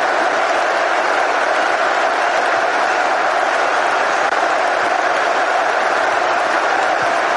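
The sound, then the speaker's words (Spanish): Football stadium crowd noise during a match: a steady, loud roar of many voices that holds at an even level with no distinct peaks. “Ahora el público vuelve a hacerse sentir.”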